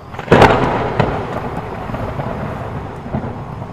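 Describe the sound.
A sudden thunder clap as a stormy wind sets in: one sharp, loud crack that rolls into a deep, sustained rumble and slowly fades.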